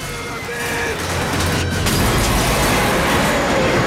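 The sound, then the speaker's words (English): A truck smashing through a wall into a bar in a Robocop film scene, with a sudden surge into loud, sustained crashing and roaring noise that holds to the end. “He veers the truck round some cars with Robocop hanging on, then drives straight through a wall and into a bar.”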